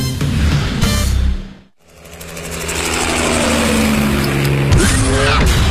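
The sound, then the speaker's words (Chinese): A sports car with a V8 all-aluminium petrol engine and all-wheel drive, capable of over 300 km/h, roars loudly, cuts out abruptly to near silence, then swells back into a sustained, rising roar. “车身线条大胆前卫，配备 V 八引擎，全时四驱系统，全铝汽油发动机，最高时速超过每小时300公里。”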